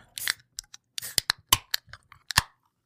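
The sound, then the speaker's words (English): Opening a can of White Claw hard seltzer: a string of sharp, dry clicks and snaps, irregularly spaced and fairly loud against near silence. “And for that, I'm going to crack this White Claw.”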